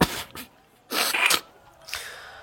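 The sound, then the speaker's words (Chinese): A sneeze comes as a sharp, breathy burst of noise in the middle, with fainter huffing breaths before and after it and no talking. “公孙打了个喷嚏，揉了揉鼻子，开始焦躁。”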